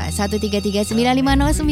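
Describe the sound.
A telephone rings with an incoming caller waiting on the line, giving a rapid, pulsing electronic ring for under a second, then a steadier sustained tone.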